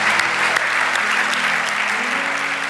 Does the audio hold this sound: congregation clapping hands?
yes